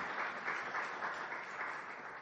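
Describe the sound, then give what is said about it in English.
Audience applause during a sermon: steady, dense clapping that lasts about two seconds and tapers slightly at the end. “You can clap for that.”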